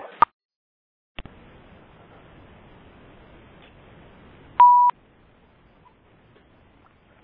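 Faint clicks and a short electronic beep come from a phone being unmuted: a sharp click, a second click, then a steady mid-pitched beep lasting a fraction of a second, and a final click, over near silence.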